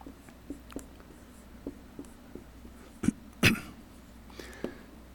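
A faint scratching of a word being written by a preacher. Light strokes come in a soft, irregular series, broken by a couple of louder knocks in the middle.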